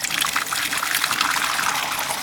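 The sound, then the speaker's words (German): Fresh whisky pouring into a barrel, a continuous splashing trickle of liquid that runs steadily and evenly without any pause. “und jetzt läuft hier frischer Whisky.”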